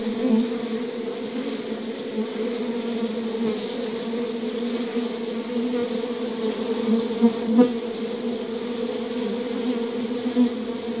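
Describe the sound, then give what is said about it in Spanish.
Honeybees buzz in an opened beehive during a frame-by-frame inspection, a dense, steady droning hum that holds at an even, fairly loud level throughout, with no voices. “Ahora, abramos la colmena con cuidado. Mientras revisas cada panal, percibe la delicada forma en que trabajan las abejas.”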